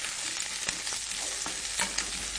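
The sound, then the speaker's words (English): Halved Brussels sprouts fry in a hot pan with a steady, bright sizzle, broken by a few brief clicks as they are stirred. No one speaks. “And then I'm going to put the heat on over here and I'm going to fry them just a little bit.”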